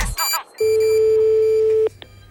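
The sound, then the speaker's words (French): A telephone call tone during a radio phone-in: one steady mid-pitched tone held for over a second after a short burst of sound, then a brief click. “je vous rappelle, chers auditeurs, que nous appelons deux personnes. Actuellement, nous sommes en train d'appeler Monsieur Villadard”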